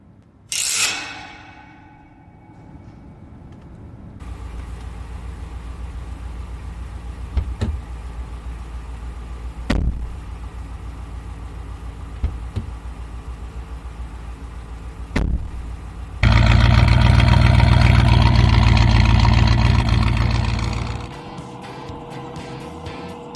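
Dramatized car sound effect of an engine driving off: mechanical clicks and creaks over a steady low hum, then a much louder rumbling surge near the end that drops away.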